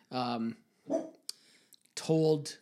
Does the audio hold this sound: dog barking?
yes